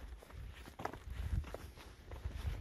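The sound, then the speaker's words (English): Faint footsteps of a few people running in the background near a large camp, heard as a few soft, low thuds over a steady murmur of low noise. “They got a big camp over there, and there's a few more running in the background.”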